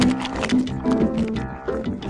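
A lion's roar: a low, rumbling growl that holds for about two seconds, swelling and easing a few times without a clear break.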